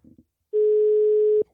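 A ringback tone sounds while a call is placed to someone: one steady, sustained mid-pitched tone lasting about a second, preceded by a few faint short sounds.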